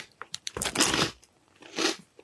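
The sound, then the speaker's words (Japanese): Crunching as someone eats snacks: two loud, rough bursts of crisp chewing with a few small clicks and crackles between them, and no talk. “あなたお菓子を食べるって暴挙に出たんですね。”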